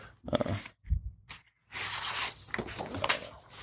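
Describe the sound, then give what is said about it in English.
A document scanner feeds two pages for a cloud scan, starting with a few short rasping bursts, then a brief pause, then a longer steady whirring rustle as the pages run through. “Doesn't matter. Here, that's two pages. This is a, oh, that sounded horrible, I'm sure. Sorry. But this is a two-page scan.”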